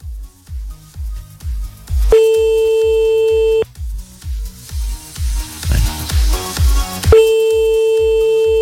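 Ringback tone of an unanswered telephone call: two long, steady electronic tones separated by a gap, sounding over a regular, low thumping beat.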